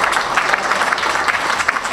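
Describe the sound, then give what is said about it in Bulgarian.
Steady applause rises from the audience at a sports awards ceremony honouring a champion boxer. It is a dense, continuous wash of many hands clapping at an even, fairly loud level. “Още веднъж аплодисменти за Александър Калинов.”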